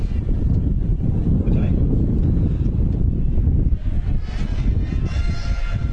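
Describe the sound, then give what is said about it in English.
Strong wind buffets the microphone at an outdoor football game, a loud, steady low rumble lasting the whole time, with voices faintly underneath. “And our listeners could probably hear the wind blowing.”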